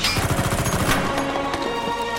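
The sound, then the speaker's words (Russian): Gunfire in a war film as soldiers shoot at the Germans, rapid pulsing automatic shots merging into a dense, loud, continuous clatter. “Тюрин, видя это, с еще большей яростью стреляет по немцам.”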